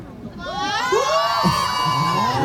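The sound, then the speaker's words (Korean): A crowd of fans shouts and cheers on cue with high-pitched, overlapping shrieks. The sound swells after the first second and stays loud and sustained to the end. “소리 한번 여러분 질러주세요. 어떻게 들리는 거지? 들려요, 밖에. 밖에 소리 들을 수 있어요. 들을 수 있고 여기 목소리도 들리고요. 우리 그럼 거기 몇 명 안 되는 포릴럽도 소리 질러.”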